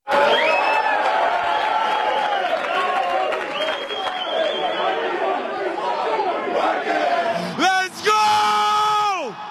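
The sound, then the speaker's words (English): A football team yells, whoops and bellows together celebrating the 2022 NFC North Championship, a loud crowd of men's voices throughout with a couple of high whoops near the end. “So bring it in tight, and then I want to hear you guys celebrate the 2022 NFC North Championship.”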